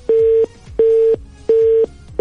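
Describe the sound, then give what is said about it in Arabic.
A phone line busy tone sounds after a dropped call: a steady mid-pitched beep repeating in even on-off pulses, with three full tones and the start of a fourth, heard alone. “انقطع الخط.”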